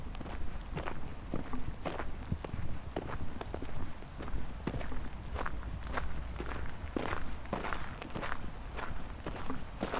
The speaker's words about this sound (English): Keep walking to the end of the path.